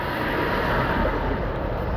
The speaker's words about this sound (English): Excuse the noise, there's a lorry just coming past, coming to get onto the ferry.